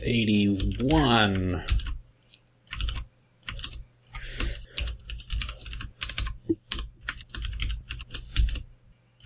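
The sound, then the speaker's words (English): Typing on a blank computer keyboard with no key legends: many irregular, crisp key clicks in uneven bursts. A brief voice-like sound comes first, then the clicking continues to the end. “I think I've finally gotten the hang of where the numbers are on my blank keyboard.”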